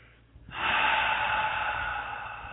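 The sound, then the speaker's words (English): A deep breath drawn in during a guided meditation, one long, steady, fairly loud airy inhale that begins after a short quiet pause and holds to the end. “take a big deep breath and come back to the room. And breathe.”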